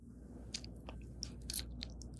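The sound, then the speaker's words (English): Someone chews composite deli meat made from mushed-up other deli meats, producing faint, soft, moist smacking and squelching sounds with a few slightly sharper bites scattered irregularly through the quiet. “a deli meat that's made of mushed up other deli meats. Okay, will you put that composite meat in your mouth”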